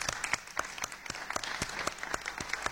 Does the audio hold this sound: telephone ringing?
no